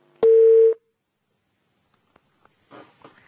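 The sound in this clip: Telephone tone after a dropped call: a single steady mid-pitched beep lasting about half a second, followed by near silence with a few faint clicks and a short soft noise at the end.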